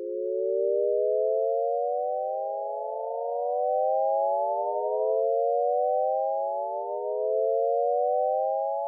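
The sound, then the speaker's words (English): A Shepard rise glissando: layered pure sine tones glide steadily upward. As the higher tones fade out, new low ones fade in, so the pitch seems to climb without end. The sound is smooth, continuous and even in level, with no voices. “Technically speaking, this is not a shepherd tone, but a shepherd rise glissando.”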